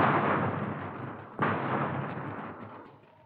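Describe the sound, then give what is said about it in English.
Heavy machine-gun fire rattles as a radio-drama sound effect in a dense, continuous crackling roar with no voices. A sharp fresh burst cuts in midway, then the noise slowly fades toward the end. “Cover that front porch. Here's a machine gun, Joe.”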